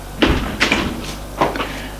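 A bedroom door is handled as someone leaves the room, making a few short knocks and rattles spaced irregularly over a quiet background.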